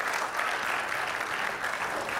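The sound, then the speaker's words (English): A church audience applauds with steady, dense clapping. The sound stays even and continuous from start to finish, with no voices standing out. “So, can we get a round of applause?”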